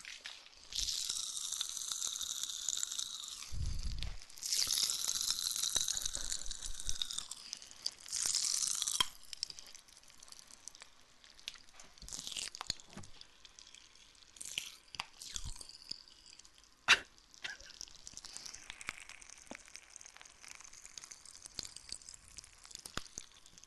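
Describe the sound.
Pop Rocks candy crackling up close in an ASMR recording: many sharp, crisp pops and crunchy crackles in uneven dense bursts, with a few louder snaps standing out and no talk.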